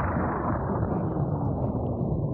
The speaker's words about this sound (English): Did we just experience a nuclear explosion? I think so.